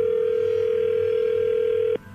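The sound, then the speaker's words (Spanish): Telephone ringback tone while a number is called again: one long, steady mid-pitched electronic tone over a faint low hum, cutting off abruptly near the end. “vamos a marcarle de nuevo y tú le contestas”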